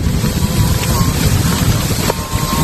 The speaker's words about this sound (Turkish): Mekke-i Mükerreme kentinde etkili olan fırtına ve sağanak sırasında binlerce Müslüman Kabe-i Muazzama'yı tavaf etmeye devam etti.